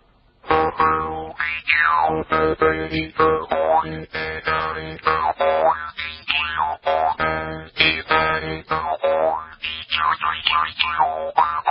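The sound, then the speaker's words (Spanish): A small mouth harp (jew's harp) is played alone, giving a steady, rhythmic run of twangy plucks over a low drone, its bright overtones sweeping up and down in vowel-like wah shapes. “Es una especie de pequeña arpa de boca, scacciapensieri, sí, también se llama maranzana en el sur de Italia”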